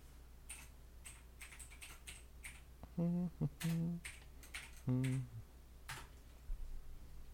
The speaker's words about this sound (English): Let me type it in.